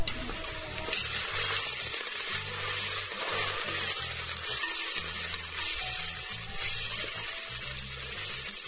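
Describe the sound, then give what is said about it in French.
Onion sizzling as it cooks in a pot, a steady, moderately faint crackling hiss that continues without a break and without any talk. “je mets l'oignon dans la marmite. Bon, pour que tu confirmes que c'est déjà bien cuit là, il faut que ça ait la couleur rouge.”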